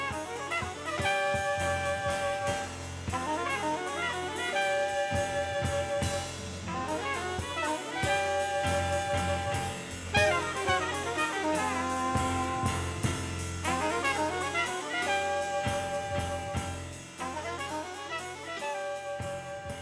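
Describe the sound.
Live jazz from the 1970s plays continuously and fairly loud, with clear melodic notes over a steady rhythmic accompaniment.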